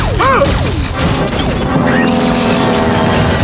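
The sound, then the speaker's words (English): A weapon firing in an audio drama: loud, dense blasts with several quick zapping sweeps that fall in pitch, layered over a continuous rumbling, crashing noise bed. “Fire weapon!”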